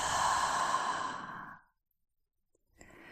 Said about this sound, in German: Atme tief durch die Nase ein und vollständig durch den Mund aus.